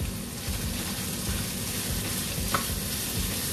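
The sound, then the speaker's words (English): Onions, jalapenos and turkey bacon sauté in a pan until almost brown, giving a steady, even sizzle throughout with no talk. “My saute mixture is almost brown. You want to make sure that onions and the jalapenos cook into the turkey bacon”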